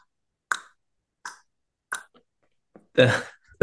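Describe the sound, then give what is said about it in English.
A voice imitates a pickleball bouncing with three crisp, evenly spaced mouth pops, then a longer, louder burst. “That's the pickleball sound for anybody that's listening that might not have been. That's the sound of the pickleball bouncing.”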